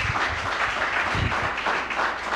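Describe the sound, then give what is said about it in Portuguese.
A church audience claps in praise, with a dense, steady patter of many hands, some heavier pulses and a moderate, even level from start to finish. “Palmas que louva o nosso Deus.”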